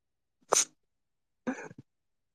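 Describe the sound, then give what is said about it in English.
A person coughs twice in quiet: the first a short, sharp burst, the second a little longer, ending with a small trailing catch. “I got a cough. Hold on.”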